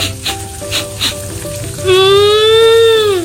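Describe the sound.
Tofu and tempeh frying in a home kitchen give a steady sizzling hiss with a few soft pops early on. A sustained high whining tone joins over the last second and a half.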